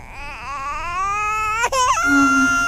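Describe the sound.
A baby cries in one long, loud wail whose pitch climbs and wavers, breaking off sharply for a moment before resuming in a strained, sustained tone.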